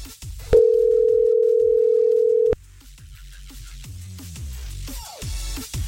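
A single steady telephone ringback tone sounds on a call to a line with no answering machine. It holds for about two seconds at a fixed pitch, then cuts off into quieter background noise.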